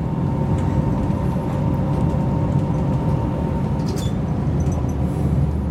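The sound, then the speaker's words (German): Steady low rumble of a long-distance passenger train pulling out of Frankfurt Airport station, with a constant electric drive hum layered over dense wheel and track noise. The sound stays even and unbroken throughout, with no voices. “So, und hier beim Flughafen, Frankfurt Flughafen, sind wir jetzt rausgefahren, auch Signal geführt.”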